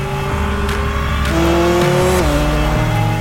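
A car speeds off, its engine revving hard with a loud, strained roar whose pitch climbs and then steps down a few times, with tire squeal mixed in.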